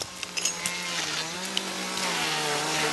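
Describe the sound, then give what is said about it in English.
A harsh, steady motor drone from a crew trimming a palm tree, with a few sharp knocks near the start and no voices. “We're getting ready to trim this palm tree today.”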